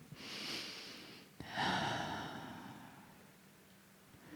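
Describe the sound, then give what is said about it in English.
A breath taken during a guided meditation: a soft inhale, then after a slight catch a longer, airy exhale that slowly fades. The whole breath is quiet and unhurried. “take another breath.”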